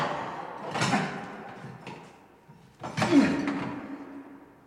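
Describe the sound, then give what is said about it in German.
A stuck door being forced but refusing to open: heavy rattling bangs and thumps come in two main bursts, with a weaker knock and quieter scraping between them. “Verdammt, ich krieg die Tür nicht auf.”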